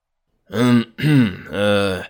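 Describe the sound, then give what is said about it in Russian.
A man clears his throat in three short, rough voiced bursts with brief gaps between them, heard alone and fairly loud. “прочистил горло.”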